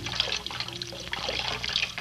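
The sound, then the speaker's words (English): Cold water poured to bathe an injured old man's head makes a steady, faint trickling and splashing that runs alone, without talk, for the whole clip. “Yeah, this cold water will help that head.”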